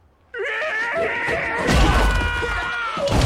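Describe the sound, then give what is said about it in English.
A body slammed hard into the ground, a deep low thud midway through a sustained, strained vocal cry that continues around it. “Bobby slams Casey into the ground.”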